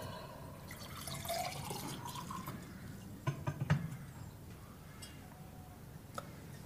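Water is poured for someone in a room, a soft, quiet trickle broken by a few small drips and light ticks near the middle.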